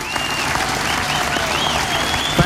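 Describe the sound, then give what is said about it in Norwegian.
Applause for office helpers at a Christian gathering, a continuous wash of many hands clapping that stays steady and even throughout. “Give them a good hand. La dem få en skikkelig applaus.”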